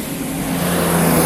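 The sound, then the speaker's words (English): Broad, steady rumble of a fire truck driving past in the street, a loud road roar that gradually swells in volume, with no siren or voices. “I'm out in the street here. Fire truck just went by.”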